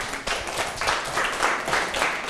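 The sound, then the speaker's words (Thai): A class applauds a classmate with dense, steady clapping from many hands, sustained at an even level throughout. “ปรบมือให้เพื่อน”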